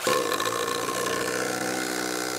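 A power drill runs at full throttle, driving a screw into material that was not pre-drilled, using the wrong bit. Its motor gives a steady, loud, buzzing whine with dense harmonics that holds without a break.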